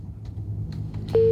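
A telephone busy tone after a call is hung up. A steady, loud single-pitched beep starts near the end, after a few faint clicks over low line noise.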